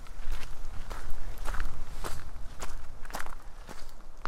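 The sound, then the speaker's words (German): Footsteps of someone walking uphill toward a rise in hilly low-mountain country, a steady run of many crunchy steps at an even walking pace over constant low background noise. “Wir gehen den Berg hoch in Richtung der Anhöhe oberhalb meines Elternhauses.”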